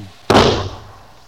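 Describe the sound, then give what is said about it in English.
A single gunshot muffled by a blanket wrapped around the gun makes one sudden dull boom that fades over about half a second into low background hiss. “I wrap this blanket around the gun to muffle the sound. Aim about there.”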